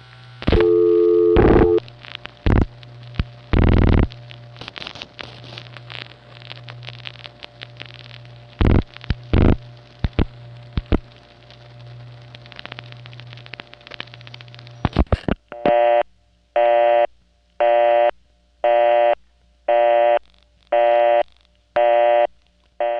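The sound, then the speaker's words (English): Busy signal from a Centrex tandem telephone switch, a DID tandem on the Verizon network. Clicks, brief tones and a low hum come first, then a loud, regular on-off tone pulses in evenly spaced bursts to the end. “The Centrex tandem that gives you a busy signal instead of a recording.”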